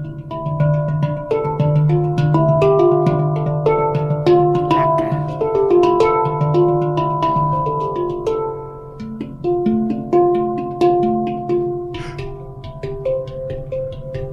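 Ringing melodic notes of a Pan Ink handpan, made in South Africa, being played. Many struck tones overlap in a flowing, steady pattern at an even, moderately loud level, with no voices.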